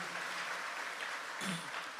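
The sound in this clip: A church audience claps in praise, steady and fairly faint, with many hands patting together in a continuous patter.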